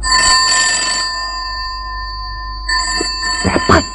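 A telephone rings in a home with a bright, metallic bell tone, sounding in two bursts separated by a short pause. A faint steady tone carries through the quiet gap.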